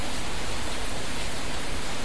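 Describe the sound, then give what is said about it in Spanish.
Light rain runs down the glass of a skylight, a dense, even hiss that stays constant in level throughout with no distinct drops or voices. “una fina lluvia comenzó a resbalar por los cristales del tragaluz”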